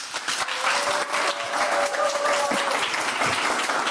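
An audience clapping their hands in sustained applause, a dense, continuous patter of many claps at moderate loudness that holds steady from start to finish.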